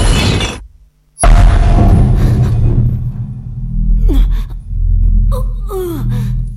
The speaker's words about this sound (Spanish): ¿Qué ha sido eso? Un campo de distorsión temporal.